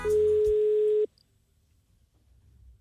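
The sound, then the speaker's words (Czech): A single steady telephone tone sounds as a call is placed to a man found in a phone directory, holding one flat pitch for about a second before cutting off abruptly into near silence. “No a zavolal mu. Takže vlastně volal Václavu Havlovi.”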